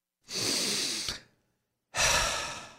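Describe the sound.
A deep breath is heard as two long, soft airy rushes separated by a brief pause, with the second slightly stronger. No voices.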